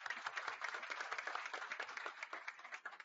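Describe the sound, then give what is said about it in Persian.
Applause from an audience at a Congress 60 addiction-recovery meeting welcoming a member, a dense, steady patter of many hands clapping, fairly faint and thinning slightly toward the end. “کف بزنیم براشون”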